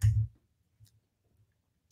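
Computer mouse clicks while using the Alibaba website: a firm low click at the start, then a faint tap and another sharp click near the end, with near silence between.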